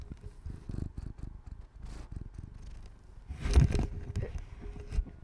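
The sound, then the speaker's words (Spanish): A cat purrs while rubbing against and sniffing a handheld recorder's microphone, making a soft, low, rapid rumbling pulse throughout. Brief rustles and bumps from the cat touching the mic rise above it near the middle. “Esa es Aika ronroneando.”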